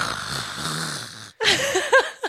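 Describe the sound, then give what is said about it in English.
A voice imitates the yawn of a tall, heavy man: a breathy, drawn-out groan, then after a brief silence a louder, strained vocal sound with wavering pitch. “And when you yawn, you sound like this.”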